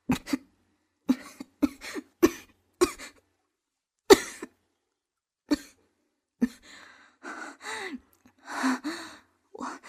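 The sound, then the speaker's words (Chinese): Coughing from someone who is coughing up a little blood: many short, sharp coughs in an irregular run, with long quiet gaps, ending in a few longer, strained, voiced gasping breaths. “我没事儿，就是稍微咳了点血，帮我拿一下茶水。”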